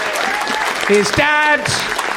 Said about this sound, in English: Give him a round of applause.